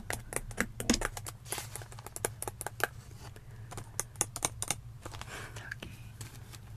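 Tapping on puffy stickers: many quick, light taps in an uneven, busy rhythm, soft and close, with brief pauses between flurries.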